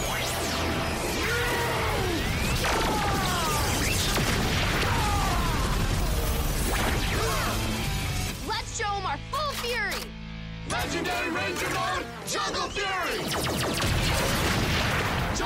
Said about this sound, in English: SPD Delta Blaster, lock! SPD Delta Max, loaded! Fire!